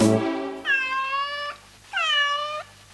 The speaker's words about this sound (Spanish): El gato que maulló.